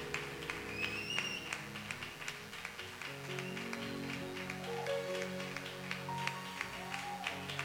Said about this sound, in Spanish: Fuerte, fuerte ese aplauso para el Señor. Fuerte el aplauso para el Señor. Fuerte ese aplauso para el Señor.